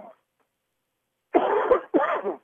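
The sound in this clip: A sportscaster coughs and clears his throat during a football game: two rough, voiced bursts in quick succession after a brief faint sound at the start.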